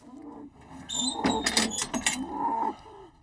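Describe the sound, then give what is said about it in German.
An Angus bull in a hoof-trimming crush: a low bovine moan mixed with several sharp metallic clanks and rattles, moderately loud and uneven throughout. “muss der Angusbulle in den ungeliebten Klauenpflegestand. Ist gut, ist gut, ist gut, ist gut.”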